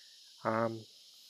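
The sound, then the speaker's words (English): Cicadas drone on a hot day in Houston, a faint, steady high-pitched hiss running throughout, briefly overlaid by a short, louder voiced tone. “Listening to the cicadas in the background, you might be able to hear them.”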